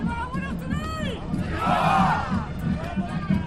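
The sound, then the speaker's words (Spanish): A crowd of demonstrators at a parade chants "Viva!", a dense roar of massed voices with shouts swelling loudest through the middle and staying strong to the end. “Un público entregado que no ha dejado de corear ¡Viva, viva!”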